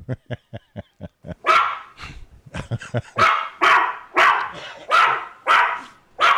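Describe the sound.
Puppy barking: a rapid string of short, high yips, then a run of longer, louder, strained barks in a steady rhythm, with no voices.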